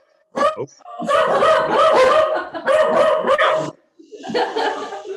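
A dog barks and yips in a few loud, drawn-out bursts, then falls silent briefly before a final stretch of softer vocalizing.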